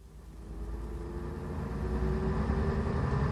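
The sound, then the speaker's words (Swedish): A bus driving along, heard as a steady low engine rumble with a faint sustained hum that slowly grows a little louder. “Du, det var ingen bra bussresa det här.”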